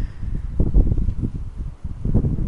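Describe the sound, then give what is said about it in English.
Gusting wind blows outdoors, buffeting as a deep rumble that swells and eases in uneven waves, briefly dropping away before surging again. “And as I'm talking to you, the wind is up.”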